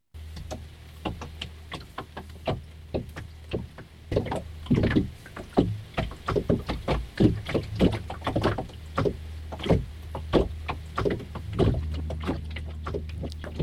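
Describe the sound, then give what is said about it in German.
Field recording aboard a boat: many rhythmic wooden knocks and ticks from the vessel over a low steady hum, growing denser and more pronounced after the first few seconds, with a touch of wind. “Auch entstanden sind Field Recordings von Sebastians Aufenthalt auf dem Boot, nun aber vor 6 Jahren. Stimmen, Umweltgeräusche,”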